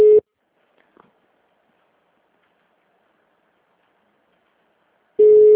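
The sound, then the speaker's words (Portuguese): Telephone tones after a dropped call: one short steady electronic beep at the start and another at the end, with a faint click and near silence between them. “A ligação caiu, eu tava falando com a senhora e caiu do nada.”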